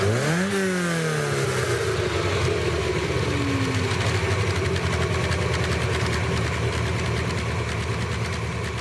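A Ferrari 308 GT4 engine gives a brief rev at the start, its pitch climbing and then sinking back, before settling into a steady, burbling idle that stays loud throughout.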